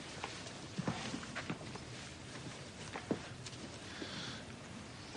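Footsteps walking to the centre of a room: a few soft, uneven steps, fairly faint and irregular, with no talk over them.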